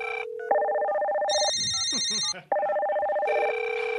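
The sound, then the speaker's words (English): A telephone rings with a bright electronic ringtone. Its high, beeping tones cycle in a repeating melodic pattern, loud and alone, with only a brief gap midway. “The phone? Oh, yeah, sure. Yeah. Do it again, and I'll answer.”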